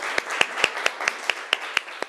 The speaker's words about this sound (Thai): ปรบมือให้ลูกขวัญหน่อยนะคะ